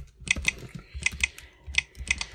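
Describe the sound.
Keys clatter on a computer keyboard as a password is typed, in short clusters of crisp, bright clicks separated by brief pauses, with no voices.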